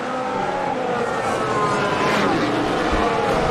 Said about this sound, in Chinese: 梅奔的双车进站